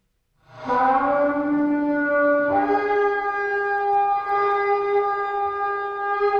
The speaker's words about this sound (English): You can hear the sound of the tekia played on the ram's horn, the shofar.